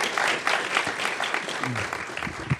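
Audience applause welcomes panelists at a Commonwealth Club event, a sustained, dense patter of clapping that holds steady throughout.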